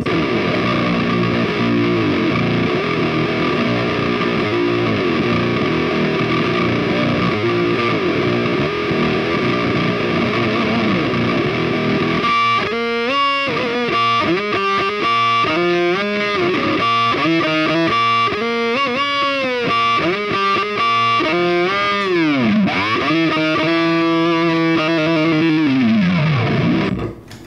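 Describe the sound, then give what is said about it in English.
Electric guitar riff played through a Digitech distortion effects pedal: a loud, buzzy sustained chord for about twelve seconds, then choppy repeated notes with swooping pitch bends, with no talking. “Now, that riff with the Digitech pedal.”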